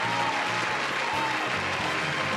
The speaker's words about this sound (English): Man, guys, please, that's enough applause. No, okay, let's turn it back up. No, but seriously, that's enough applause.